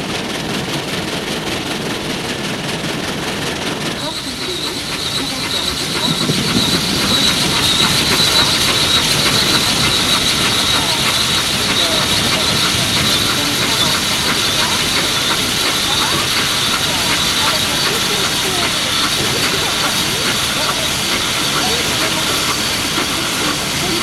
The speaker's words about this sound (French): Enfin, le train arrive à Lyon, la Part-Dieu, la route de Vienne, les quais de Rhône, et il arrive à la gare Perrache.